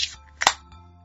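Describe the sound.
A drink of barley tea being opened gives a brief, sharp double crack that fades quickly, standing out clearly against quiet surroundings.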